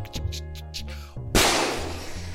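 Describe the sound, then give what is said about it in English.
A single loud gunshot bang cuts sharply through music and leaves a slowly decaying tail. “You shot your brother.”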